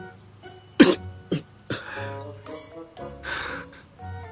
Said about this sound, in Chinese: 扭脸打了个喷嚏